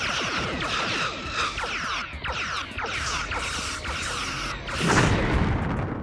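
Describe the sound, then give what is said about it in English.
Spaceship weapons fire in a space battle, a dense, unbroken barrage of rapid zapping shots and booms that swells into a heavier rumbling blast near the end. “They're opening fire! Shields holding. Okay, firing everything we've got.”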